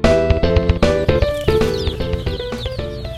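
Baby chicks of different breeds peep in store bins at a lumber store, producing many rapid, high-pitched chirps that overlap in a busy, continuous chatter.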